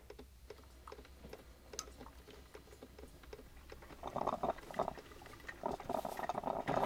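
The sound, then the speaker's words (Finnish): Coffee brewing as water boils: scattered soft ticks and clicks at first, then a louder burst of gurgling, bubbling water about midway that keeps churning to the end, with no talk. “Mä keitän kahvin. Mä keitän kahvia!”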